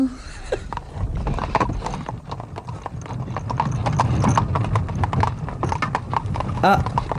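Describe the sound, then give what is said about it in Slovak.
Hooves of a horse pulling a carriage clip-clop steadily, many even beats in a continuous rhythm over a light rumble. “Opatrne si ráčte sadnúť do koča. Tak, prosím.”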